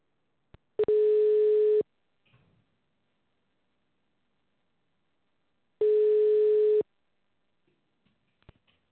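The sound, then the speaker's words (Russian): Telephone ringback tone while an automated system calls a subscriber: two steady electronic tone bursts, each about one second long, separated by a long silence, with a few faint clicks in between. “Для соединения с абонентом нажмите кнопку. Начинаем звонить абоненту. Ожидайте соединения.”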